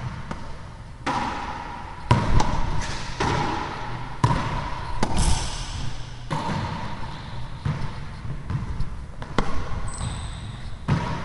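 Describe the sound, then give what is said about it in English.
A ball strikes objects again and again, making many irregular thumps and knocks over a continuous rolling, trickling background. “I'm recording at 96 kilohertz. So the audio quality should be greatly improved, and hopefully I won't get the popping that used to happen whenever the ball would hit something. Let's go ahead and try that now.”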